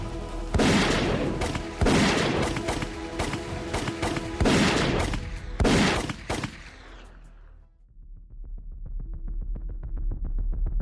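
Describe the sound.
Gunfire from an aimed weapon in a video game: a loud, irregular volley of heavy, booming shots over about seven seconds, then fading into a quieter, rapid rattling texture.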